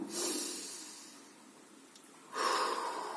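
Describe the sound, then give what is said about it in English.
Slow breaths in and out during a chakra meditation: two soft, airy breath sounds separated by a quiet pause, with no talking. “The way I do it, I take a breath, it represents the motion. And when I take out the breath, means I'm resting wherever I stopped.”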